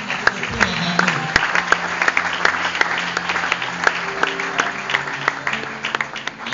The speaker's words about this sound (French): Maman Bibi, est-ce qu'on peut m'aider à acclamer et à apprécier Dieu?